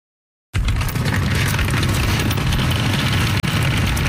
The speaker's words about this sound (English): That's the sound of the big wheelie bins that the University of Ottawa provides to help students and their parents haul stuff from the parking lot to the dorm room.